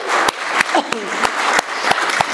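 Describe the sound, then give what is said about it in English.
A group applauds a team that has just finished a timed task, with dense clapping punctuated by regular, sharp louder beats. “So should we give them a clap? That looks pretty amazing.”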